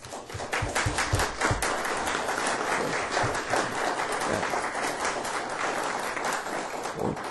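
An audience at a university symposium applauds to thank partners and friends, with dense, steady clapping that holds at an even level for the whole stretch.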